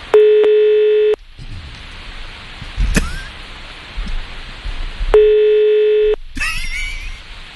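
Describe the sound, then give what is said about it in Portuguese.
Telephone tone heard while placing a call: two steady, buzzy tones about a second long, separated by a stretch of line hiss with a brief blip between them. “Deixa eu ligar aqui pra ele, pera aí, vamos ver.”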